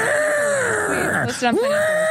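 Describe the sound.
A voice imitates Godzilla's yell with a strained, drawn-out screeching cry that breaks off briefly midway and then swoops back into a loud wail.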